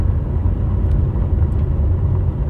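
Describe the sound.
A car drives onto a solar farm construction site, giving a steady, loud, low rumble that holds evenly throughout with no voices.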